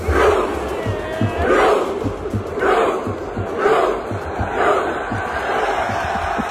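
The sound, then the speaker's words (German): Football stadium crowd of Norway fans chanting in unison as they mimic Viking rowing at a World Cup semifinal against England, loud rhythmic swells repeating about once a second over a constant roar. “Wenn Norwegen gewinnt oder ein Tor schießt, rudert nämlich das ganze Stadion. Also die setzen sich dahin, strecken die Arme nach vorne und rudern wie Wikinger.”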